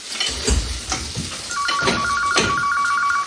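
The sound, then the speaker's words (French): A telephone rings with an electronic ringtone, a repeating high, beeping pattern that starts partway through. It plays over cooking noises in a home kitchen. “tu peux répondre au téléphone s'il te plaît?”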